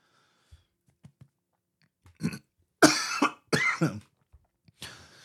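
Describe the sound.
Several harsh coughs from a dry throat come in a short cluster of bursts after a few faint clicks, with brief pauses between them. No one speaks.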